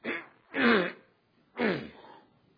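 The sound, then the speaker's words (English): A voice imitates a man with a cold clearing his throat: three rough, raspy bursts, the second and third fuller and longer, alone and fairly faint. “my friend, the one who had just been baptized, cleared his throat. I had not noticed that he had a cold. He went,”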